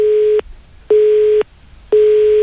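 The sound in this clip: On an unanswered telephone call, a steady line tone repeats as three evenly spaced beeps, each about half a second long with equal silences between, loud and alone.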